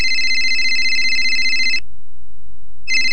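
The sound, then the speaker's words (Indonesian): Telephone ringing with a bright electronic warble: one long ring of nearly two seconds, a short silence, then a second ring starting near the end. It is loud and alone, with no voices. “Ini nih, Ibu Ningsih menelpon.”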